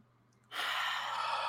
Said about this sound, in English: So we're all going to take a collective cleansing breath.